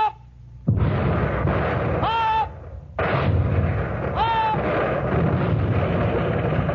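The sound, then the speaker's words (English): Warship guns fire shells in a sustained naval bombardment, a dense continuous roar of overlapping blasts, with two rising whistles of incoming shells cutting through the loud, rumbling barrage. “Every 10 seconds, the guns were ready and loaded, and every 10 seconds, the shells were hurled out of them.”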